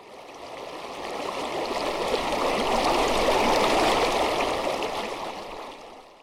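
Canal water flowing in a continuous, even rush with a broad hiss, swelling slightly in the middle and easing toward the end, with no voices.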